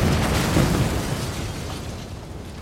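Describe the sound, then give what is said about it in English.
Dynamite blast in the Gobi Desert, heard as a loud, broad rumbling roar that holds steady for a couple of seconds and then slowly thins out. “Fetch my dynamite!”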